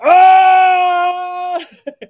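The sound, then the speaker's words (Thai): A voice imitates a mermaid wailing in labour pain with a loud, sustained cry held at a steady pitch for about a second and a half, followed by a few short, faint sobbing breaths. “จนเงือกมันคงเจ็บท้องแล้วมันร้อง”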